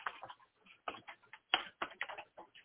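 Quiet keyboard typing, a rapid, irregular run of many crisp key clicks in short bursts, heard alone without voices.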